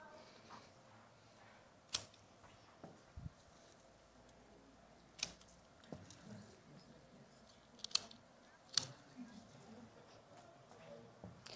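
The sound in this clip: Crisp snips of garden shears cutting back a thorny wild rose bush in a flower bed in front of a house, several sharp clicks spaced irregularly over a faint, steady background hiss.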